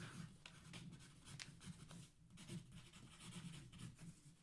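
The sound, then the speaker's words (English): Scribbling a vote down in writing, a continuous faint, scratchy rubbing of many quick strokes, with no talk. “Tried to scribble it so you wouldn't know which one I was writing.”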